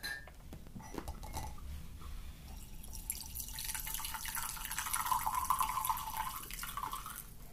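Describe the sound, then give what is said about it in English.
Brewed green tea being poured, a faint, steady trickling and splashing of liquid that runs continuously without pause. “so I'm gonna pour the green tea already. I think it's brewed.”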